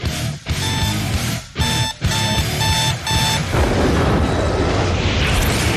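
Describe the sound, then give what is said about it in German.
Self-destructing tape explosion effect: a bright, repeating alarm-like ringing tone broken by a few short gaps, then a loud, sustained roaring blast of noise that fills the final seconds. “Dieses Band zerstört sich in 5 Sekunden.”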